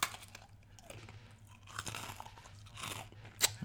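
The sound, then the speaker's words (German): Crunching and chewing of Russisch Brot letter biscuits: a few rough, crackly bites in uneven bursts, with one sharper crunch near the end and no talk. “Hier nochmal ein B aus unserem russisch Brot.”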